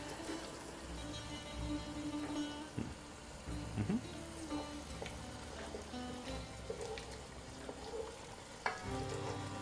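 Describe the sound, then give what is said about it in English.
Cleaned lily bulbs, separated into individual pieces, frying in a pan: a steady hissing sizzle runs throughout, broken by scraping stirring sounds and occasional light clinks. “And now I'm gonna go ahead and add the lily bulbs, which have already been cleaned and separated into individual pieces.”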